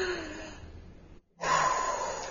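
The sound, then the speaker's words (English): A deep breath drawn in and released during a guided relaxation exercise. It sounds like a long, airy breath, then a brief silent pause, then another full breathy stretch. The breathing is soft and steady. “I'd say the first thing is take a really deep breath”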